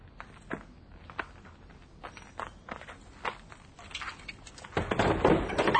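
A window being tried and pushed open: several dull knocks and thunks spaced out, then a louder scraping rattle at the end as it gives way.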